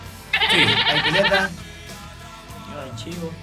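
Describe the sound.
A goat bleats in one long, wavering call lasting over a second, followed by a quieter stretch where a voice speaks.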